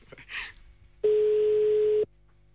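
Telephone ringback tone while placing a call: one steady, mid-pitched beep lasting about a second, preceded by a brief faint noise.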